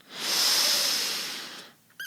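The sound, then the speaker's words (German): Slow breath drawn in through the left nostril while the right is held shut, a soft airy hiss that swells and then tapers away over under two seconds, with a brief faint sound just after. “Jetzt verschließen wir bitte unser rechtes Nasenloch. Wir atmen jetzt durch das linke Nasenloch ein.”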